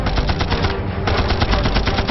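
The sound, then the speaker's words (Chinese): Gunfire in a wartime fight against Japanese soldiers, a loud, continuous burst of many sharp shots packed tightly together across the whole clip. “啪的一声枪响。冷云从上面开枪，把小鬼子给打死”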